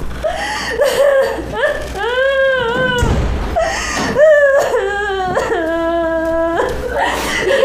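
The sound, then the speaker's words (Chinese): A detained mother sobbing and wailing, pleading to go home to her small child. Several drawn-out, quavering high cries alternate with choked, broken breaths, loud and without other voices. “别哭了”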